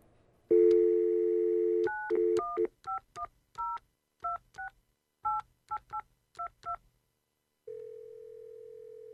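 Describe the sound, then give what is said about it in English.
A telephone dial tone gives way to a quick run of touch-tone keypad beeps, more than ten in short irregular groups, as a number is dialed, followed by a steady tone. “Maybe I ought to call my dentist.”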